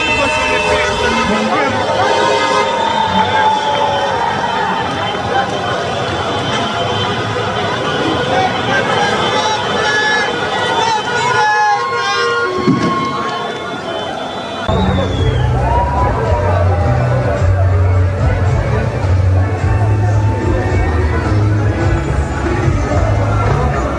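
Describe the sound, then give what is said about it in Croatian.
Street celebration in Sarajevo after a match's final whistle, with long columns of vehicles and fan chants. Dense crowd hubbub and car noise run continuously and loudly, and a deeper, heavier rumble joins partway through. “Duge kolone vozila, sirene, vatromet, ali i navijačke pjesme odjekivale su ulicama glavnog grada. Donosimo dio atmosfere.”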